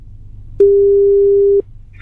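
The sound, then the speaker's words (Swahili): A single steady telephone line tone for a phone-in call sounds once as a long, even, mid-pitched beep of about a second. It stands alone over faint background hum, with a brief higher-pitched sound at the very end. “Pigiwa simu, pokea telefone”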